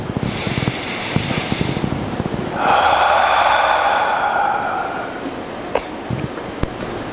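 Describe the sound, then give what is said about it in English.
A single deep breath is drawn in during a guided prayer: a loud, airy rush lasting a couple of seconds, with softer breathy sounds before and after it. “Take a breath.”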